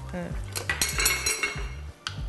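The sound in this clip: A utensil stirs salted, seasoned soup in a pot, clinking and scraping against the metal. Many irregular knocks and rattles come at a steady working pace, with no talk over them.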